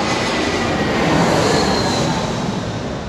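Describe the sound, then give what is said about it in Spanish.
An airplane passes overhead as a broad, roaring rumble that swells to its loudest near the middle and eases slightly toward the end, with no talk. “esperar que pase el avión.”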